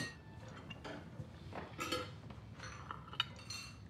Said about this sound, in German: Gib mir mal den Teller.